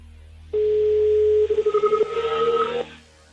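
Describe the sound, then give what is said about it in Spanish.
A telephone tone after dialing: one steady mid-pitched tone lasting a little over two seconds, wavering and pulsing in its second half as a fainter, higher tone joins, then cutting off abruptly. “Estoy marcando, ¿eh? Vale. A ver si da tono. Ahí está.”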